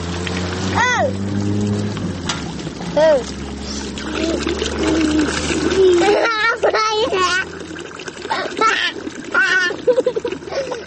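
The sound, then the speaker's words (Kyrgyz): Water runs non-stop from a roadside pipe at a road crossing while children pour it into plastic bottles and spill it out again. A steady flow and splashing run under the children's voices, which grow more frequent toward the end. “Чоң жолдун кесиришиндеги суусу токтобой аккан суу түтүгүнүн жанында эки чыт курсак бала баклашкаларга суу куюп, аны кайра төгүп ойноп турушат.”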